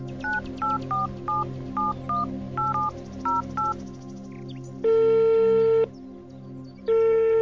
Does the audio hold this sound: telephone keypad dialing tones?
yes